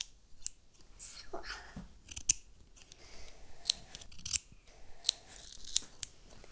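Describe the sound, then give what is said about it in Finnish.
Scissors snip in a series of crisp, sharp clicks at an uneven pace. Each cut is a brief, fairly quiet metallic snap heard without talk. “Nyt men leikan. Jaha, du ska klippa nu. Med saxen.”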